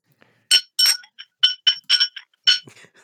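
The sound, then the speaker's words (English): A key-shaped object jangles inside a glass Calpol bottle partly emptied of its misty liquid, giving an irregular run of bright, ringing glassy clinks, some sharp and some lighter. “On close inspection with some of the misty Calpol liquid removed, you can see it is a key-shaped object, jangling around in the bottle.”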